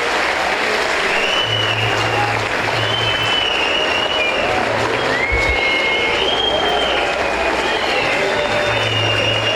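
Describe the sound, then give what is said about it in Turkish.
Loud, dense audience applause for a football club's head coach, technical staff and players, a steady roar of clapping that holds evenly through the whole stretch. “sizlerden, başta Okan hocamız olmak üzere, teknik ekibimize, futbolcu kardeşlerimize ve tüm çalışanlarımıza güçlü bir alkış göndermemizi rica ediyorum.”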